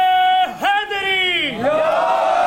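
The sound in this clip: A crowd shouts a religious slogan in response during a religious gathering: loud, drawn-out voices with a wavering pitch that dips twice before settling into a sustained cry.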